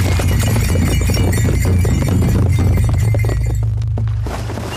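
Galloping horse hooves as a rider urges the horse on: rapid, rhythmic hoofbeats pound steadily under a loud, dense wash of other sound, easing slightly in the final second.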